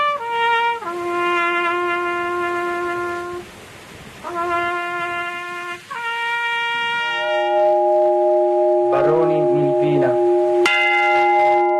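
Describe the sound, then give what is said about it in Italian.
Church bells toll at a night vigil in remembrance of victims: several loud, resonant strikes, each with a long ringing tone that overlaps the next and slowly decays between blows. “Voci, suoni, rintocchi delle campane a ricordo delle vittime”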